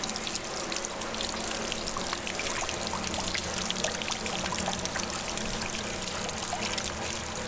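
Seepage water runs through drainage pipes inside the body of a dam, a steady, continuous rushing trickle with no pauses and no voices.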